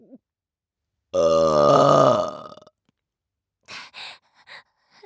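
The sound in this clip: A long, loud, voiced burp with a deep, croaky tone rolls out for over a second, then a few short soft breaths or grunts follow after a pause.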